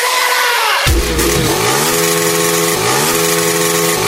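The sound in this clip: Motorcycle engines rev hard at a live party event with a DJ, a loud, dense roar whose harsh pitch swings up and down in repeated surges and never drops out.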